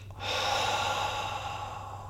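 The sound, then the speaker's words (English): A deep breath is let out in a long, steady exhale during a guided relaxation exercise after tensing the body's muscles. It sounds as a breathy, airy rush that starts abruptly and holds evenly for about two seconds, alone without voices. “right to the top of your brain, and then let it out.”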